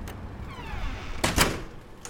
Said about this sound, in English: You can come in and close the door.